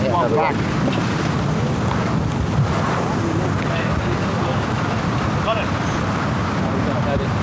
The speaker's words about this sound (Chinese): 今天的这个现场的狂风对于球员们来说是极度的不友好。